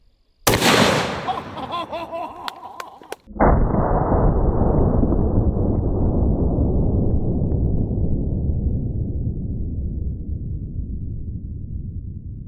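Prototype gunshot rounds are fired at a tub of sour cream. A loud, sharp blast is followed a few seconds later by a second heavy boom whose roar slowly fades away.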